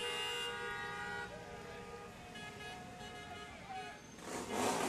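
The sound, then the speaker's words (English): Horns honking from a pack of motorcycles at the Celebrate Israel Parade on Fifth Avenue in New York: sustained, overlapping tonal horn blasts that shift in pitch, ending in a louder burst of rushing noise. “There you go. That should get the motors running. On a hot New York day. Yeah. What more do you want than 30 motorcycles in front of you?”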